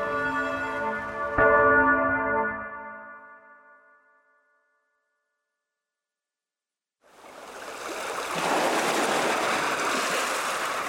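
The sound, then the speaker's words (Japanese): A church bell rings out for a wedding in a town, with one bright strike and a long, harmonically rich tone that fades to silence. After a pause, a broad rushing wash of noise swells up and holds to the end. “陽気な鐘の音が町中に響き渡った”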